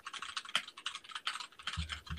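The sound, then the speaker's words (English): Typing on a computer keyboard: many quick clicky keystrokes in uneven bursts with short pauses between runs, fairly faint, with a low thud near the end. “Type. I know. Did you hear the little clickety clack?”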